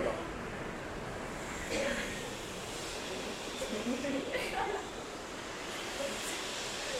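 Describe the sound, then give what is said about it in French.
Voices of the Red Army Choir imitate a gentle sea, producing a steady, broad hissing wash with soft, slow swells that runs for the whole stretch. “Et ce sont les chœurs de l'armée rouge qui, d'habitude, font la mer. Rouge. Est-ce que vous voulez bien faire la mer pour nous permettre de continuer ? Oui. Ça, c'est facile.”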